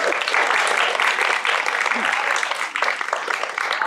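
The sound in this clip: Audience applause at a dance company's community event, honouring the company's 38th year: dense, continuous clapping that stays loud and even throughout.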